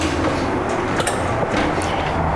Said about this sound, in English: Here comes the elevator now.